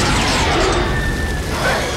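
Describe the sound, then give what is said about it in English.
Explosion as a fiery ball of hot rock bursts from a tar pit: a loud, dense, continuous roar with a rumbling low end that fills the whole clip without letup. “Suddenly, a fiery ball of hot rock flies from the smoke like a comet and lands in a ball of flame on the pavement nearby.”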